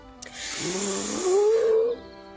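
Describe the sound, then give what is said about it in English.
A deep breath drawn in, a single long, loud inhale lasting under two seconds, with a rising, whine-like voiced tone in it and no talk. “Now, everybody take a deep breath.”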